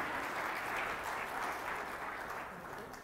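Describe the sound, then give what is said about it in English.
An audience applauds volunteers with dense, continuous clapping that stays loud throughout and eases off slightly at the end. “would you just give them a hand for volunteering today?”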